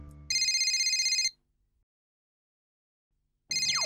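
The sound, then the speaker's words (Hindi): A telephone rings in two loud, rapid trilling bursts. The first lasts about a second and is followed by a silent gap, then the second begins and is cut off at the end. “किसका phone है? हाँ एक minute देखता हूँ।”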